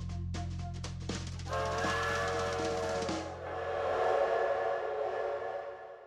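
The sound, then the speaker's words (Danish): Quiet ambience at a suburban railway station on a summer night, with a family waiting for the night train to Berlin: low steady rumble and faint clicks, a sustained high whining tone in the middle, then a broad rushing noise. “jeg står her med familien på Høje Tostrup station og venter på nattoget til Berlin.”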